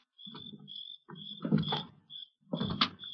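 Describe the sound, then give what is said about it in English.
An old, locked window being worked open with a knife slipped against its latch gives a few scraping, creaking bursts separated by brief pauses. “Locked. I ought to be able to slip the latch on an old window like this. This knife will do it, I think.”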